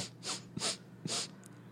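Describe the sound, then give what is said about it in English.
Quick sniffs through the nose as someone smells a drug sample in a comedy sketch. Three short, breathy inhalations come in a loose rhythm, each soft and airy, with faint clicks between them. “I think I inhaled some. How much are we supposed to be smelling it?”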